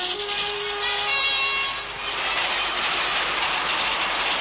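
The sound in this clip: A 1912 train carrying prisoners from the Washington State prison to a Kansas penitentiary gives a steady rail rumble, with a sustained high whine over it early on that fades out while the rumble carries on.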